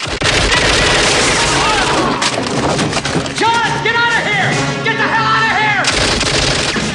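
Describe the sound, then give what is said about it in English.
Gunfire in a film as Rambo shoots guards entering a prison: dense, loud automatic fire with booms and thuds runs continuously, packed tightly with other action sounds. “Rambo fires on guards as they enter the prison.”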